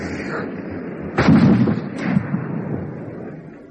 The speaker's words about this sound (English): No, it was a rifle, not a shotgun.